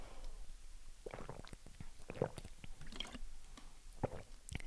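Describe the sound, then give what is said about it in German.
Someone drinks, making faint gulps and wet swallowing clicks at an irregular pace. “Also ja, ich muss mal was trinken.”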